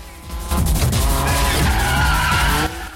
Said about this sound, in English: Smoke rises from the tyres as the 350Z glides almost sideways up the semicircular ramp.